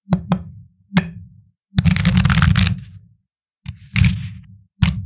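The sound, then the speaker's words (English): Tarot cards being shuffled and one drawn: a few sharp taps and knocks, a longer rustling riffle of the deck, then more brief taps and slides. “But first, let's pull our tarot card.”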